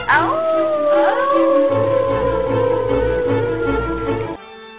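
A wolf howls in one long, tonal, sustained note that drifts slowly lower in pitch, then cuts off abruptly near the end.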